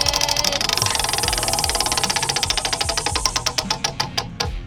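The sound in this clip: A prize wheel spun for a game gives off a rapid run of loud, regular clicks. The clicks gradually slow and space farther apart as the wheel loses speed, ending in a few widely spaced ticks.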